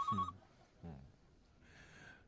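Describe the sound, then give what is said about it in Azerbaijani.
A telephone rings in short, fairly faint bursts, with quiet gaps between the rings. “O telefona. Ha. Cevap ver.”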